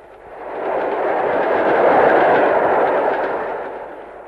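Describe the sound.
A train approaching along the tracks: a loud, broad roaring rumble swells up within the first second, holds steady and heavy, then eases slightly toward the end, with no voices.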